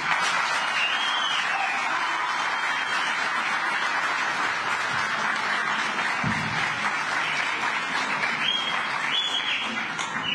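Sustained applause from a crowd welcoming the newly announced Umkhonto weSizwe party deputy convener for KwaZulu-Natal, a dense, even wash of clapping that continues steadily for about ten seconds without pause.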